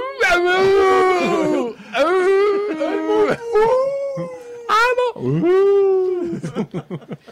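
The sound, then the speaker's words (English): A wolf howl made as Foley for a film: several long, loud, wavering howls that swell and sink in pitch, separated by brief pauses and trailing off into short fading breaths. “Foley work from Season of the Witch at the Wolf going,”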